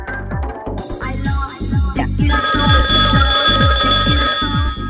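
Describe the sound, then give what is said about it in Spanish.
A telephone rings with an incoming call, a sustained electronic ringtone over a steady pulsing low beat, loud throughout. “Tenemos una llamada al aire.”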